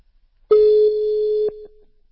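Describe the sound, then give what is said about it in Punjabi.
A telephone ringback tone sounds as a call rings out: one steady, mid-pitched electronic beep lasting about a second, then a short softer continuation that fades away. No talk is heard. “ਮੈਂ ਉਹਨਾਂ ਨੂੰ ਕਾਲ ਕਰਕੇ ਵੇਖ ਲਾਂ ਜੇ ਉਹ ਆ ਲਵੇ”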